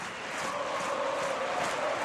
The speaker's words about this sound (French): Avec un poussé par le public hein, quand même. Ça, on sait que ça les met en transe, ils en parlent depuis le début du tournoi, mais avoir. Voilà, cette communauté argentine qui chante pour eux, ça les transcende encore un peu plus les Argentins.